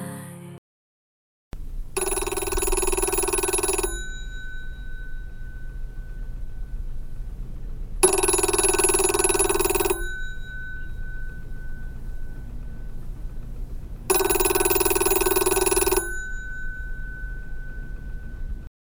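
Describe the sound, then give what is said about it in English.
A telephone rings in three long, loud electronic bursts, each about two seconds, separated by even pauses of silence. “When the phone rang, I thought it was still night.”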